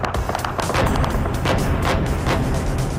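Overnight bombardment on the Israel–Lebanon front: a few heavy booms and sharp cracks of fire break through a continuous loud rumble, each blast short and broad.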